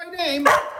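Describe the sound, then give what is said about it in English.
A dog barks once, sharply, right after a short falling whine-like tone. The whole sound is brief and moderately loud. “That's my dog.”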